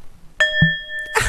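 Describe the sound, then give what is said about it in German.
A singing bowl struck, giving a clear, steady ringing tone with a few sustained overtones that hold for under a second before a louder burst of noise cuts in. “Ich habe jetzt nämlich eine Klangschale und ich liebe es.”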